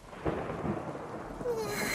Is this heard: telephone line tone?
no